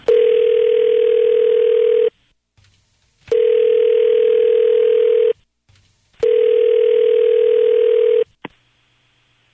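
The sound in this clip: A telephone call to a doctor repeats a steady, low, buzzing tone in three long bursts of about two seconds each, separated by short silences, with no voices.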